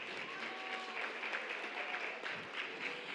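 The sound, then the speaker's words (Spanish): A large audience claps for a show's hosts: a dense, even patter of many hands that holds at a steady level throughout. “Aplauso enorme para Diego Emilio.”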